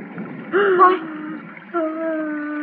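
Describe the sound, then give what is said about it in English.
A person sobbing, with two drawn-out, wavering, tearful wails broken by a short catch in the voice, heard alone and fairly loud. “Why do you just sit there sobbing?”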